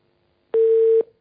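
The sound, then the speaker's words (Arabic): A line tone sounds after a telephone call is cut off: one steady, mid-pitched electronic beep about half a second long, loud and alone against silence. “اتصال انقطع.”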